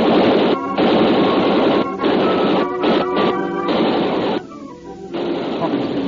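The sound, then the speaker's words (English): Gunfire aimed at a man on a ship in a radio drama: loud, dense, chaotic bursts of rapid shots crackle almost without pause, broken by a few brief dips between volleys. “I was sure of that because the slugs were following me like hounds to a scent.”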